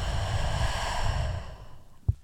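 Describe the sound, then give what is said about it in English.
A deep, slow breath taken during a calming sleep exercise: a long, airy, breathy rush that holds steady and then fades toward the end, with no talk. “Take a deep breath in and deep breath out.”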